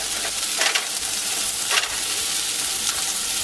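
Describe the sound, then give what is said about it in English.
Food stirred in a sizzling frying pan: a bright, steady hiss with a few louder scraping strokes of the utensil. “So I'm just gonna stir this up.”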